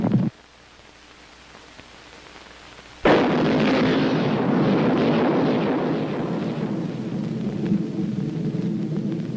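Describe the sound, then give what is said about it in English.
An antimatter bomb explosion: a sudden, loud, broad blast breaks in after about three seconds of faint hiss, then turns into a sustained roaring rumble that slowly thins over the following seconds. “Then came the beginning of the end. The United States decided to use its new antimatter bomb.”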